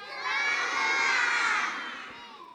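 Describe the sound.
A group of children shout loudly together in unison, one sustained, high, bright cry lasting about two seconds that swells and then fades.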